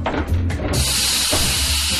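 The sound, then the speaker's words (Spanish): Steam hissing as an oven is opened: a steady, bright hiss starts partway through over a low background and runs on to the end. “¡Al abrir el horno!”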